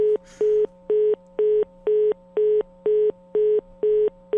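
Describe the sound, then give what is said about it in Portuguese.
A dropped phone call leaves a disconnect tone: a steady series of short, evenly spaced, mid-pitched electronic beeps, clear and alone. “caiu a ligação”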